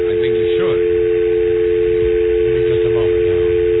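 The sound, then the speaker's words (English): A steady telephone dial tone on a line being called from a BlackBerry phone, a continuous even hum lasting the whole clip, with a voice faintly underneath. “Let me call my BlackBerry.”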